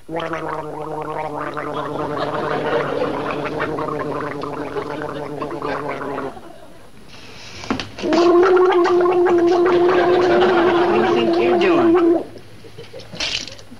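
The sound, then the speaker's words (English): A person gargling because of a sore throat: a long bubbly, pitched gurgle, a short pause, then a second loud gargle holding a steady tone before stopping. “What do you think you're doing? I'm gargling.”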